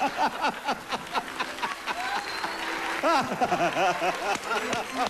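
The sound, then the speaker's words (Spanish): Audience applause at a televised comedy show: sustained clapping throughout, mixed with loud voices shouting and cheering over it. “¡El aplauso fuerte a Polo, Polo!”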